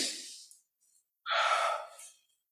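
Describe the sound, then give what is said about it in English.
A group of children taking a deep breath together: a soft breathy inhale, a brief near-silent pause, then a louder, longer whooshing exhale that fades out. “take a deep, all you kids, take a deep breath. Go.”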